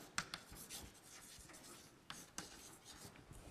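Writing on a board during a physics lecture, with soft scratchy strokes broken by a few sharper taps, fairly quiet and with no talk.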